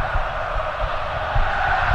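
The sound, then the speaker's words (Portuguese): A packed football stadium crowd roars at Neoquímica Arena during a Santos match, a steady, dense wash of noise with slight swells and no distinct chants. “a galera vai se manifestando. Ouça, ouça, ouça o público aqui na Neoquímica Arena.”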